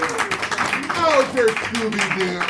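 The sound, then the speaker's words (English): Audience applause, faint scattered clapping running under a speaking voice, with the claps never rising above the talk. “That is fantastic. 20, 40, 60, 80, 100. Let's give her a hand, everybody.”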